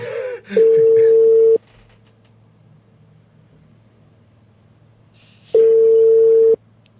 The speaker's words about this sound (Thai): คุณหมอโทษทีครับเออสัญญาณขาดไปครับ